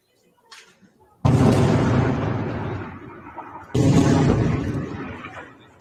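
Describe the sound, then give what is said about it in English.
Rocket impacts from Lebanon striking northern Israel: two heavy booming blasts about two and a half seconds apart. Each hits with a sudden loud onset, then rumbles and fades slowly. “rockets from Lebanon first, which is the first time we've seen rockets actually target the northern colonies of Israel. Here's a look at those rockets.”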